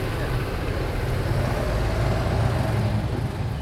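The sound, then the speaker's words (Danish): Rumble of an Arla dairy truck driving past, a steady, loud, low engine and road noise that holds fairly even throughout and swells slightly in the middle. “Kører Arla forbi her.”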